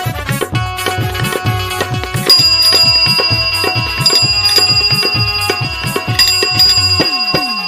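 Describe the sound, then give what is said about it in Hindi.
Bicycle bell ringing in quick repeated trills over a steady rhythmic music beat, bright and prominent throughout. “आवे ले ट्रीन ट्रीन घंटी बजा के sir से निकाल जाले पैडिल दबा के”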